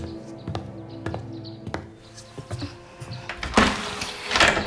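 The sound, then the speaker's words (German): A window is opened: a series of light clicks and knocks comes from the handle and frame, then a broad rush of outside noise swells in and stays. “Soll ich das Fenster öffnen? Das wäre nett.”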